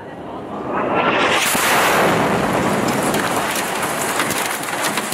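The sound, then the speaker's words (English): An Israeli airstrike hitting a building in the Rayas neighborhood swells into a loud, broad roar within the first second and a half, then holds as a sustained, rough rumble with crackling bursts to the end. “Videographer Hamza Kureka captured the moment an Israeli airstrike hit a building in the Rayas neighborhood on September 13th.”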